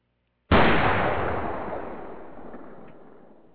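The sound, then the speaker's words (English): One loud gunshot cracks suddenly, then its sharp burst fades slowly into a long trailing decay, with no voices. “Hey, man, you were shooting by me, brother.”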